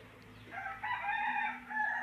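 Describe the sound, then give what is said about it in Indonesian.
A neighbour's chicken crows near a house, a single faint rooster crow that rises into a drawn-out call with no talk over it. “aku cuma mau bilang ini ini kayaknya ayam ayam di dekat rumah aku ini kayaknya”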